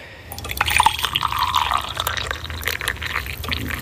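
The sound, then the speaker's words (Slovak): Hot water is poured over coffee, making a continuous, bright, gurgling splash with small drips and glassy ringing. The pour runs steadily for several seconds. “Tak, zalejeme si kávičku.”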